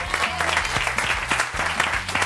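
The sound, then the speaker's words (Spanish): Audience applause on a Spanish television show, brisk dense clapping at an even, full level that carries steadily from start to finish. “Un aplauso grande, ¿no?”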